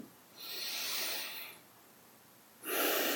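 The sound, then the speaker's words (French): Deep, slow breathing during a seated relaxation exercise: a long, soft, airy breath of about a second, a quiet pause, then another breath rising at the very end, faint and alone. “je vous invite à prendre quelques grandes respirations profondes, trois grandes respirations profondes”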